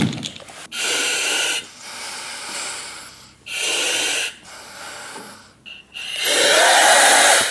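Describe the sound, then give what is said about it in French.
Breathing through a breathing-apparatus regulator fed by a high-pressure air cylinder at 329 bar: three loud, harsh hissing inhalations separated by quieter gaps, with a fainter breath between them. “vous avez entendu, chaque fois que j'ai besoin de respirer, j'aspire de l'air qui m'est donné par la bouteille au moyen de détendeur.”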